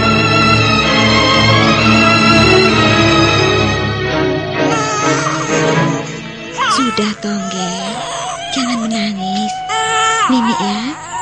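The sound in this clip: A small boy cries harder and harder in a radio drama, a loud, continuous wailing with rising and falling sobbing pitch that builds and grows more strained toward the end.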